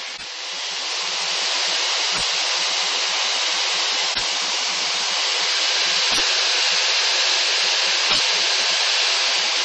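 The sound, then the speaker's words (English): Steady rushing hiss of cold air seeping through a gap into a small aircraft cabin. It is broad, loud and unbroken for the whole stretch, with faint clicks recurring at regular intervals. “Wow, there's tons of cold air seeping in from here. Wow. Yeah, on my side too. Maybe that's the sound that we're hearing over the mics”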